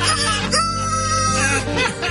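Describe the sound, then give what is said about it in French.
A rooster crowing in one long, loud, continuous harmonic call with no other sounds around it. “je vais te montrer comment j'ai réussi à faire crier un coq à l'heure que je veux avec de la broche puis une batterie de char”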